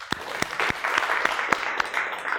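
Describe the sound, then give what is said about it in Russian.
Applause rises as a steady round of clapping. Distinct sharp claps land at a regular pace over a dense, continuous patter. “Ну, давайте похлопаем его.”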